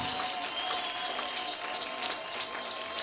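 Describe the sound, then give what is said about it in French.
A church audience applauds during a service. Faint, evenly spaced claps run steadily through the whole stretch. “Alléluia, est-ce qu'on peut encore acclamer notre Dieu? Can we applaud our God again”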